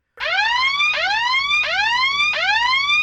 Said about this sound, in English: the alarm was deafening to my hawk hearing. The sound screamed up from the hole in the ground.